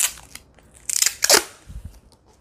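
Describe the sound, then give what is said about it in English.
Tape being put on during a scrap paper craft: a few short, crisp crackling bursts bunched near the middle, followed by soft low thumps. “Putting the tape on. And this should do it.”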